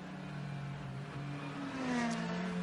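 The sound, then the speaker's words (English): A Ferrari race car accelerates out of the pit lane with a fairly quiet, steady engine hum and whine that grows slightly louder toward the end. “off and away Albert Costa goes in the Conquest Racing Ferrari”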